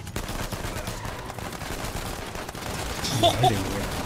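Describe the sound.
Dense gunfire from a video game, with bullets coming from all sides, forms a steady wash of crackling, rapid-fire bursts with no clear breaks across the whole stretch.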